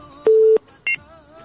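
Telephone line tones as a caller is connected on a radio phone-in: a steady beep lasting about a third of a second, then a shorter, higher two-pitched beep, over a faint background hum.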